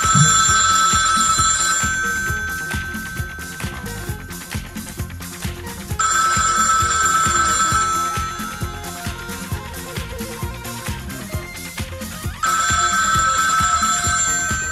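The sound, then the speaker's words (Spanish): An old landline telephone bell rings in three long, shrill, trilling bursts separated by pauses, loud over steady rhythmic background music. “Esos teléfonos sonaban más o menos así, mira.”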